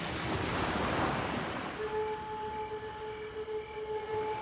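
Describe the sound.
Ocean surf at a surfing beach by a groyne: a broad rushing wash swells and ebbs over the first two seconds, then settles into a quieter, steady hiss with a faint high whine above it.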